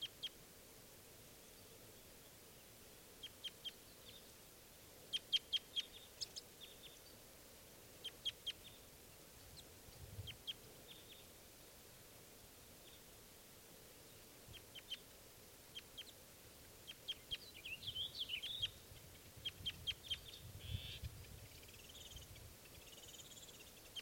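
Faint bird flight calls: many short, high chirps come in scattered bursts over a low, steady background hiss, and the calls grow busier toward the end.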